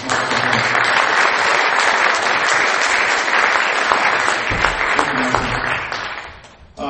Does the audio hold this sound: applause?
yes